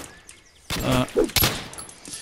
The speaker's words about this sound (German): Ja, in der Luft schießen ist eine blöde Idee.